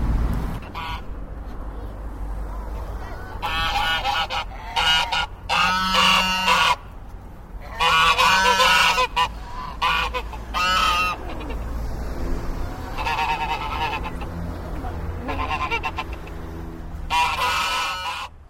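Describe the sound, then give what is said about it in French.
Geese honking in Morlaix: irregular clusters of loud, harsh honks and cackles, separated by quieter gaps over a low background rumble. “Vous les avez peut-être reconnus, les célèbres commères de Morlaix, les oies.”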